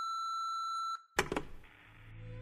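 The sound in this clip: A voicemail message beep: a steady, clear electronic tone holds for about a second, then cuts off into a sharp click followed by faint low hiss and hum.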